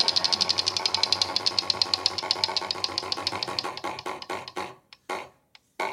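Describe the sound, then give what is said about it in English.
A prize wheel spins on a panel quiz show, its clicker ticking in a long run of rapid, evenly spaced clicks that gradually slow and spread out until the wheel comes to rest. “would you just please spin the wheel for Sam Cass?”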